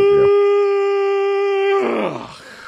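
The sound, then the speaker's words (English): A vocal yawn: one long, steady voiced tone held for nearly two seconds, then breaking into a breathy, falling sigh that fades out. “Way to encapsulate all of my yawns into your one.”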